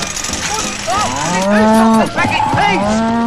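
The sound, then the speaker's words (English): A cow moos loudly, giving a few drawn-out, low, throaty calls that swell and run together over a steady background. “The cow is now only a few yards away from the well.”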